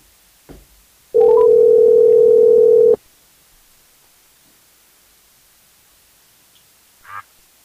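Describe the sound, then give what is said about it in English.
A telephone dial tone sounds as a call is placed: a loud, steady tone lasts nearly two seconds amid quiet, with a soft click before it and a brief faint noise some seconds later. “let's give Seth a call and see what he has to say.”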